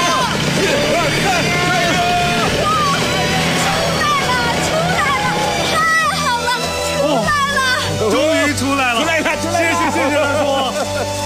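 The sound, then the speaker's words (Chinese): Car engine revving in the cold while people push the stuck car. Loud shouting voices dominate, and a deep engine drone swells underneath in the second half. “好，我再去加点油门。 我们都到后面推，再试一次。”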